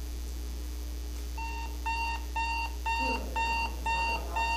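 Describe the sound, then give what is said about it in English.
An alarm clock goes off to wake someone, giving bursts of rapid, high electronic beeps repeated in a steady rhythm over a constant low hum. The beeps start after about a second of quiet. “That's the sound that you have to get up.”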